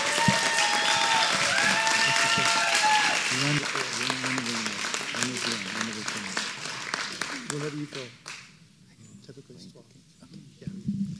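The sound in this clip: An audience applauds in welcome, dense sustained clapping that gradually thins and fades, with a voice speaking over it.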